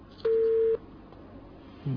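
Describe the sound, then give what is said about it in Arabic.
A phone line tone sounds as a caller's call drops: one steady, mid-pitched electronic beep lasting about half a second, then quiet line noise before a second tone starts right at the end. “قطع اتصال.”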